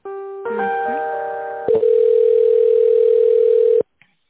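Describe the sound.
Telephone tone while a call is transferred to the accounting department: a short layered mix of tones gives way to a steady, unbroken tone lasting about two seconds, which cuts off abruptly before a faint click.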